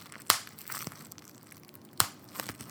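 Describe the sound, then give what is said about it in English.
Bubble wrap being crushed gives sharp crackling pops. Two loud pops stand out, with a few fainter crinkles between them, and no voices are heard. “I have some bubble wrap right now.”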